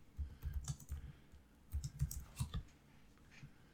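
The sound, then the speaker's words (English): Typing a search on a computer keyboard: soft, faint key clicks in two quick bursts separated by a short pause. “Okay. I'll just type in Eddie the Grillmaker.”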